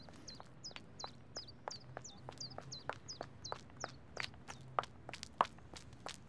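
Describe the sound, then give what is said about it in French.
Footsteps hurry along an alley in a quick, even rhythm of many light, faint steps. Repeated high chirps sound above them. “Mais voilà qu'il entend des pas. Forcément, il tend l'oreille.”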